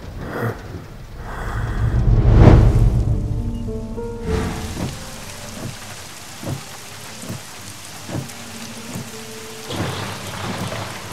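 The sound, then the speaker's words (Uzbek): Heavy rain pours down while a deep roll of thunder swells to a loud peak and fades, followed by steady rainfall dotted with many sharp drips and knocks. “Yorqin aka, yomg'ir zo'r yog'yapti-ya.”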